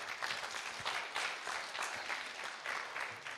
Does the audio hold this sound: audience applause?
yes